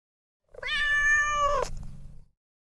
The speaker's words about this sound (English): Cat.